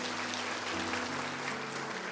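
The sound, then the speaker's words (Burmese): Applause from a church audience during a Sunday afternoon sermon: a steady, dense patter of clapping that holds at an even level throughout, with low sustained tones underneath. “ထိုဖရားကိုလက်ခုပ်တီးလက်ချီးမွမ်းကြရအောင်။”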